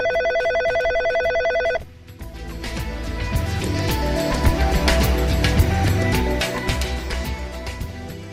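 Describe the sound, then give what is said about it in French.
A telephone ringing on a call placed from Prague to Paris: one continuous, buzzy ring tone lasting nearly two seconds. It stops abruptly and gives way to a dense, rumbling wash of noise. “Allô, allô, allô Paris, ici Prague, Radio Prague appelle le Centre tchèque de Paris.”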